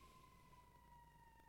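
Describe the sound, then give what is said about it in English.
Police car sirens pass outside as a faint, sustained wailing tone that slides slowly downward in pitch over a low background rumble. “oh, police cars. That's it. Where they going?”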